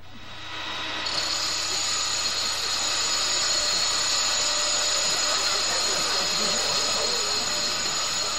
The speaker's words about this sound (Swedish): Ja, det var mycket riktigt urtrampningslagret på en Skoda 1100 GS som vi hörde.